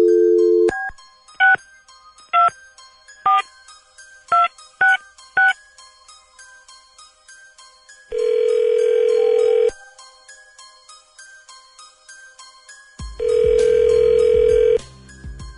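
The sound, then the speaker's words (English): Telephone number dialed on a keypad: a brief tone, then a quick run of short touch-tone beeps, followed after a pause by two long, steady ringing tones. “Dialing at random.”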